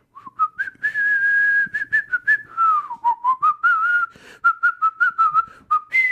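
A person whistles a song while fetching a glass of water downstairs: a clear, fairly loud melody of sustained notes and short bouncy phrases, with no talk.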